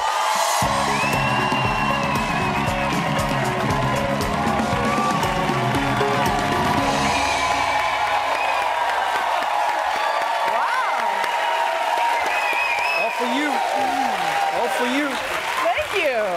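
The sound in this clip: A talk-show studio audience gives a guest a standing ovation, with loud continuous applause, whoops and cheers throughout. Music sounds underneath during the first half and then drops away.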